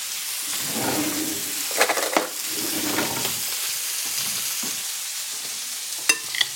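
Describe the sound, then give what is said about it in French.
Pieces of meat sizzle as they brown on their sides in a frying pan. A steady hiss runs throughout, with occasional clinks and scrapes of stirring. “maintenant, je vais faire dorer les faces et on devrait être bon au niveau cuisson.”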